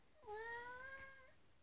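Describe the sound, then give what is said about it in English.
A cat gives a single drawn-out meow about a second long, tonal and harmonic. It is fairly faint and heard alone, without any talk. “hear that? That's the cat.”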